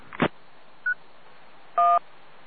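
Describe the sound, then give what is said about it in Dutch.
DTMF tones over a handheld two-way radio: a sharp click, a faint brief beep, then a louder steady two-tone beep of about a fifth of a second, with no talk. “Ja, ik hoor een DTMF toontje.”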